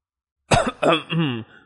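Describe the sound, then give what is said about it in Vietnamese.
An embarrassed man gives a light, voiced cough like throat-clearing, in three quick bursts on its own. “Huyết Bào Nhân nghe vậy thì ho nhẹ một tiếng, có chút xấu hổ nói”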